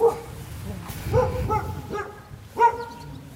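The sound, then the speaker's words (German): A dog barking at a house in a village in Romania: several sharp, high-pitched barks spaced irregularly over a few seconds, with a steady background murmur. “Haben wohl auch einen Hund.”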